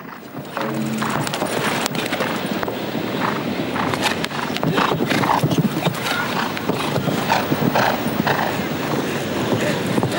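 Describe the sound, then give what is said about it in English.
Horses' hooves thud and clatter at an equestrian show jumping event. Many irregular impacts fall over a dense, continuous background din. “I leave you with one of my favorite sounds, the equestrian jumping event.”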